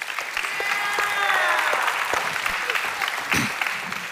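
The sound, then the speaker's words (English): A church audience claps to welcome online worshippers during a service. The applause is brisk and steady and stays dense for a few seconds. “So if you're on site with us today, we put your hands together and welcome in our online family.”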